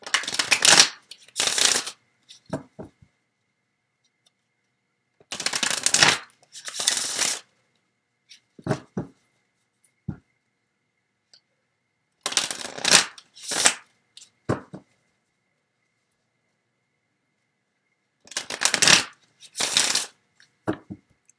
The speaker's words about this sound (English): And then I'm going to get some additional cards.